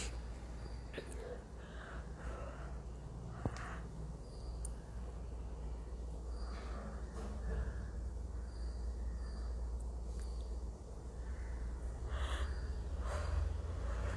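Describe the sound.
People yawn during a group exercise, producing scattered breathy gasps, sighs and drawn-out exhalations at a faint level over a steady low hum.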